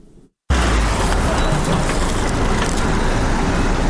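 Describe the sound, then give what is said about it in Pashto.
Vehicles loaded with medical and non-medical supplies and medicines, a loud, dense, continuous engine and road roar that starts abruptly after a short quiet gap and holds steady. “دا ژغونه د هغه موټرو دي کوم چې په تیبي او غیر تیبي وسایلو او د غراز په درملو باندې بار دي.”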